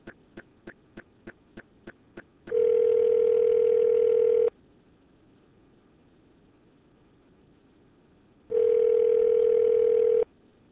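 Telephone dialing: eight quick clicks in an even rhythm, followed by two long steady tones separated by a quiet pause of about four seconds, with no voices.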